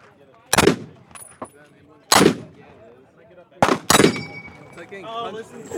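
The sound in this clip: Gunfire from a firearm being emptied: a few loud, sharp shots spaced apart, two close together near the end, with voices talking between them.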